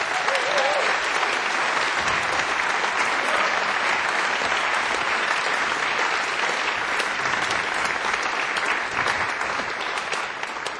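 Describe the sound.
Concert audience applauding the performers as they are welcomed on stage, a long, dense burst of clapping that holds steady for about ten seconds before easing slightly at the end.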